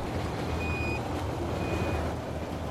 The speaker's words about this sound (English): That's my radiation alarm going off again. It keeps going off every 5 seconds.